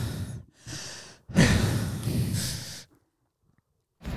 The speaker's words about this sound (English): He's enjoying the podcast. He's taking the iconic deep breaths.